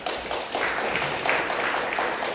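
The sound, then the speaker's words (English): A round of applause from students at a Torah class, a dense and steady patter of many hands clapping with small pulses in loudness. “And for that, I want you all to give yourself a round of applause.”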